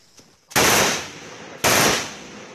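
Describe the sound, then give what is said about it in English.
Gunfire from fighting between the army and Karen rebels in Myanmar's jungle: two sharp, loud blasts about a second apart, each trailing off in a long, rumbling decay. “Fighting between the army and Karen rebels.”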